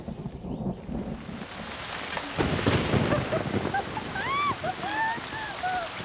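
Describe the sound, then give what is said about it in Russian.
Heavy rain pours down outdoors under trees onto a woman lying on the ground. The steady, loud hiss of downpour runs throughout, with high chirping calls rising over it in the last seconds. “Дождь льет на нее.”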